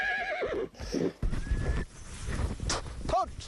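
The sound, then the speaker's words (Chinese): A horse gives a wavering whinny at the start while riding and herding a flock of sheep toward autumn pasture. Scattered hoof clops and talking follow. “布克一同骑马，赶着羊群向秋季牧场进发。”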